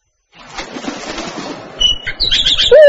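A bird's wings flap in a soft, fluttering rustle, followed by a few high, sharp chirps and tweets near the end.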